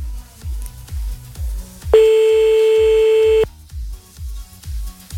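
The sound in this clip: A telephone line tone sounds as a call is placed again: one sustained, even beep lasting about a second and a half, set against a steady pattern of regular low thumps.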